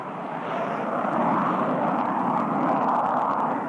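Airplane engine noise at an airport, a broad, steady roar that swells slightly in the first moments and then holds loud and continuous with no talk.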